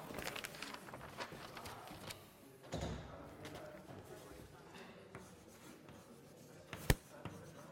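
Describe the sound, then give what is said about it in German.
Writing on a board during a maths lecture on expressions in a series, a faint run of short scratchy strokes in an irregular rhythm, with one sharper tap near the end. “ich schreibe sie nochmal hin.”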